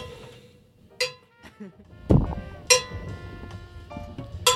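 Someone hits a countertop edge to crack it off, giving a few sharp, bright clinks and knocks and one heavier low thud in between. The hits are spaced irregularly with quiet gaps.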